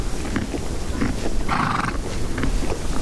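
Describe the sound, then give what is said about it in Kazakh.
A herd of horses gives off a continuous rough, noisy din, with scattered animal calls and one louder whinny-like cry standing out near the middle. “үйір үйір жылқы да бар”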